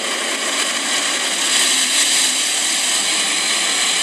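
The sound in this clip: Steady, loud whirring roar of an automatic car wash with a rotating brush roller, a dense hiss-laden machine noise that holds constant throughout without breaks or voices.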